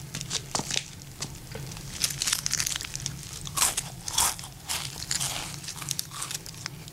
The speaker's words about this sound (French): Je vous invite à déguster mes nouilles sautées au bœuf.